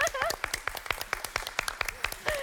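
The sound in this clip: A quiz show contestant clapping for himself, with rapid, evenly spaced hand claps forming a quick, crisp rhythm while voices talk over them.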